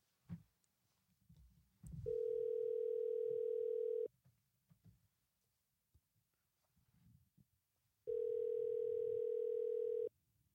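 A telephone tone sounds while a call is being placed: two steady, even electronic tones, each lasting about two seconds, separated by a long gap of near silence with faint background noise.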